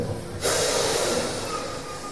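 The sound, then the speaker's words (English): A crowd with hands raised draws a deep breath together: a broad, rushing inhale starts abruptly and holds steadily to the end, easing off slightly. No talk is heard. “Everyone take a deep breath.”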